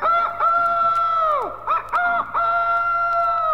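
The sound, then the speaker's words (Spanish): A rooster crows loudly in hoarse, sustained calls: one long drawn-out crow, a brief break, then further crowing phrases, with no talk. “el gallo, cantando a pleno pulmón, dejó al bandido poco menos que sordo”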